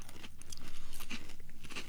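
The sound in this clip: Crunching of a bite of a very thin Fruity Pebbles flavored rice cake: many quick, dry, rhythmic crunches of steady loudness, like continuous chewing, with no voices.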